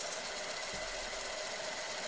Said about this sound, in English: That's a microfilm machine, like the ones you used at your high school library.